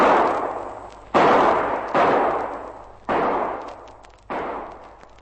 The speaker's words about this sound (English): Now, let me place that fire. I think I can see where they are. A bit far for a revolver, but here goes.